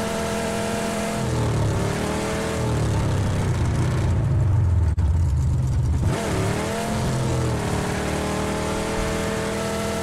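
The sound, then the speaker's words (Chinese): A sports coupe engine roars in the PUBG video game, a loud, continuous drone whose pitch wavers and bends as it revs, running alone without talk. “这是跑车吗？所谓的轿跑。”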